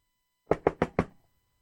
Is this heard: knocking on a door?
yes